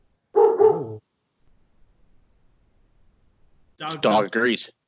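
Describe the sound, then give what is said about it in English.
Dog barking in two short bursts: a pair of harmonic barks, then a quiet pause, then a quicker run of about three louder barks. “It's dog barking. Dog agrees.”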